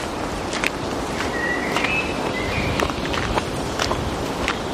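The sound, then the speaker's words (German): Footsteps of people walking together along a soft-ground path: muffled, steady steps that barely stand out from a constant wash of outdoor noise. “Ich gehe hier lang. Komm, lass uns zusammen gehen.”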